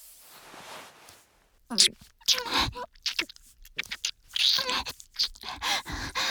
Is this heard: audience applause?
no